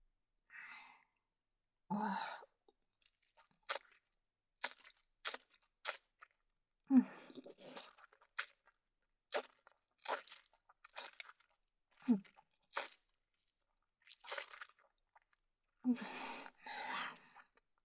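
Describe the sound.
Someone chews a strongly flavoured, grassy-tasting food. Many short, quiet crunching and munching bursts are separated by pauses, with a few soft breaths between them.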